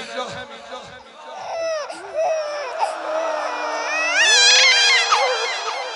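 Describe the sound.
An infant's cry: loud, high, wavering wails that bend up and down in pitch and climb higher near the end, sustained almost without pause.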